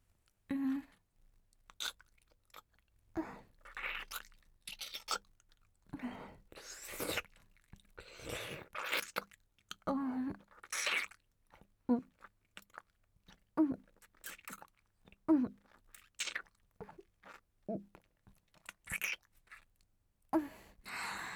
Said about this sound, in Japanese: じゃあこれ、ちょっと味見してみましょうか。